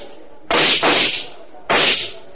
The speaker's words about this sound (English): Dawson was standing in the lobby and firing his gun at the ceiling.